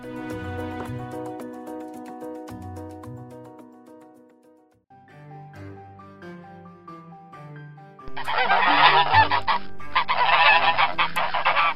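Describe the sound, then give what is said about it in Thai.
Geese honking as a flock is driven through a gate: many loud, repeated honks that run together, followed by a louder, denser stretch of overlapping noise. “เช้าตรู่วันต่อมา เมื่อเธอและคอนราดกำลังไล่ฝูงห่านผ่านประตู”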